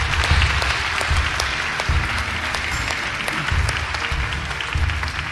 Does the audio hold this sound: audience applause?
yes